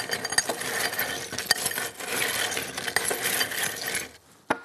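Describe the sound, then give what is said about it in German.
Ice and salt stirred around a drink can make a continuous clattering, clinking rattle with sharp clicks and knocks. It stays fairly quiet and drops almost to silence at the end. “wenn ich die Dose einfach so ins Eis reinstelle, wird die schon irgendwann mal kalt. Aber mit Salz geht's schneller. Versprochen. Ein bisschen umrühren.”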